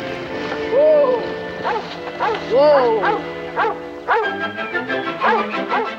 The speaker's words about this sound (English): The boy stops as a rabbit comes running from a thicket of trees, chased by a yellow dog.